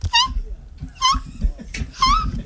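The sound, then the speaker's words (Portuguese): A voice imitates a dog yelping as if being run over: three high, whining, strained cries, each rising and falling, with short gaps between them over a low background bed. “Que isso, cara? É um cachorro sendo atropelado? Pode ser. Faz de novo aí pra gente ver, vai.”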